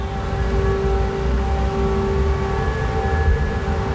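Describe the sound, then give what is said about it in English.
An air raid siren in Odesa, Ukraine, during the Russia-Ukraine war, wailing as a steady, droning tone with layered harmonics over a constant low rumble, unbroken throughout. “I'm talking to you from Odessa, and the sound you hear in the background is the sound of an air raid siren”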